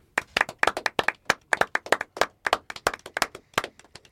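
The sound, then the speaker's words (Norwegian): A small group applauds a guest with crisp, separate hand claps in a loose, uneven rhythm. The claps are clear and moderately loud, with no talk. “Stor applaus til vår gjest”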